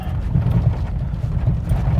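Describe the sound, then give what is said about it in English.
Farm background ambience with horses: a steady, busy wash of hoof clip-clopping and low rumbling movement that fills the whole stretch at a fairly loud level. “As you can hear from the background, we are here at the farm.”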